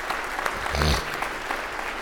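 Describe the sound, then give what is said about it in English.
Audience applause at a fundraising celebration for a church ministry: dense, steady clapping fills the whole stretch at an even level, with a brief voice rising through it partway. “So give yourselves a big round of applause for that.”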